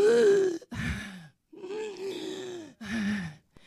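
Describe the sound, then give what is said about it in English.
A voice imitates heavy, labored breathing with several loud, strained gasps and groaning breaths. Each carries a rough voiced tone, and brief pauses separate them. “If you're breathing like this,”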